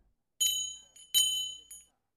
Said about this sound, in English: Then a bell began to ring.